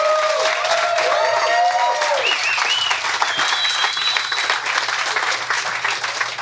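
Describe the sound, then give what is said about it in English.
Audience applause at a live debate event in Miami, dense clapping with a few shrill whistles early on, holding steady before easing off slightly at the close. “Come on, louder, come on.”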